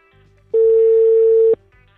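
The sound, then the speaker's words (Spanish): A telephone tone sounds as a call is placed: a single steady, loud, mid-pitched beep lasting about a second, with a quiet background before and after. “Estamos llamando a don Maximiliano Inda.”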